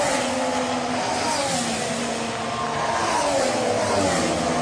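Engine roar of current-season Formula 1 race cars. The sound is a dense, continuous, loud whine with layered harmonic tones that shift slightly in pitch and hold steady throughout. No voices are heard.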